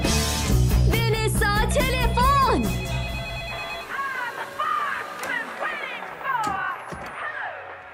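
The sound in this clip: A telephone rings with a melodic electronic ringtone of repeating warbling tones. It is loud at first and becomes fainter and more broken toward the end.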